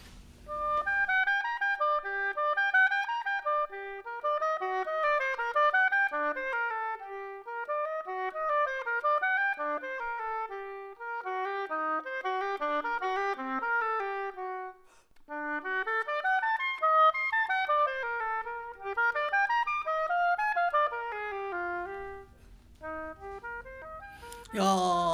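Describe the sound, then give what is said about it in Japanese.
A recorded oboe plays a gentle, somewhat melancholy solo melody in flowing phrases of rising and falling notes. The melody pauses briefly about two-thirds of the way through before resuming. “優しい音っていうか、ちょっと哀愁があるというか。 そうですね、オーボエってあのフランス語でオーボアって書くんですけれども”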